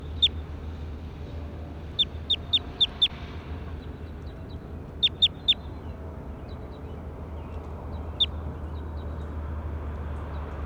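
Short, high-pitched bird chirps come in a few brief bursts, with a quick run of several calls near the start and scattered single calls later, all over a steady low hum.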